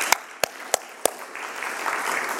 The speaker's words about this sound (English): We can clap for that.